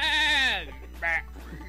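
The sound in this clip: A goat bleating: a long, quavering, nasal bleat followed after a short pause by a brief, higher bleat, with a low steady hum underneath.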